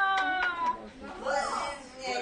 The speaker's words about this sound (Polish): On zawsze płacze, jak siebie widzi, jak jest malutki.